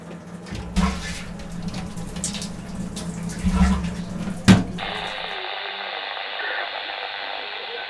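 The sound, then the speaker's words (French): Snowmelt water runs over rocks below the snowfield by a mountain refuge in the Écrins massif. It makes a steady, rushing hiss that turns into a thinner, even hiss near the end. “c'est toute la fonte de cette neige au-dessus qui vient courir sur les rochers à cet endroit-là, que j'essaie de récupérer”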